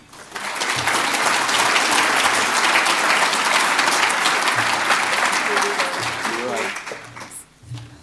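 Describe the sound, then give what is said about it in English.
An audience applauds to welcome a guest speaker at a council-hosted talk event in Auckland. The clapping is dense and loud, holds steady for several seconds, then fades as a voice begins to speak. “So I'd like you to put your hands together and welcome Edith.”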